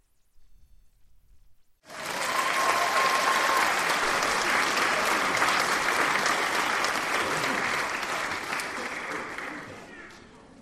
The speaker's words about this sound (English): And that noise means it's time for a little hooray for the latest upcoming parkrun anniversaries and all the volunteers working so hard to make it all happen.